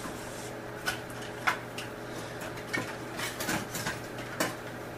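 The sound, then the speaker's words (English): A few faint clinks and clatters of kitchen utensils as a spoon is taken out, for stirring a meat and onion mixture on a heating stove, over a steady low hum. “I uh, get a spoon out here that I'm going to use to kind of stir this meat and onion mixture around with.”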